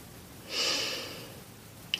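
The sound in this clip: One deep breath in during a guided relaxation exercise, a soft airy rush that rises quickly, then thins and fades within under a second, followed by a faint, brief click.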